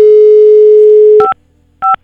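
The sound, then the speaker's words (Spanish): A telephone dial tone sounds while a call is placed: a loud, steady single-pitch tone holds, then cuts off and is followed by two short, separate two-note beeps with silence between them. “Le estamos marcando.”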